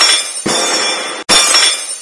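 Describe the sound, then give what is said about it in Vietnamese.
Teacups fall and shatter in two loud crashes of breaking ceramic, each a bright burst of smashing and tinkling shards, separated by a brief gap. “Chỉ thấy mấy chén trà đều rơi xuống, phát ra tiếng vỡ nát.”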